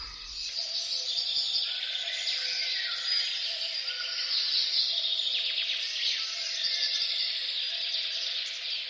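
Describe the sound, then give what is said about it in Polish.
Late-spring forest ambience. A dense, steady chorus of bird calls and chirps runs at an even level throughout, with no voices. “A ten las, który teraz słyszymy, właściwie to niemal od początku naszej audycji, to jest jesienny las, czy bardziej wiosenny?”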